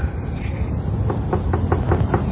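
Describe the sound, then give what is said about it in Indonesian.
Knocking on a door comes as six quick, evenly spaced raps in the second half, heard over a loud, continuous low background rumble. “ketukan itu terdengar lagi.”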